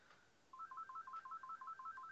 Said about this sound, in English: You got a phone call.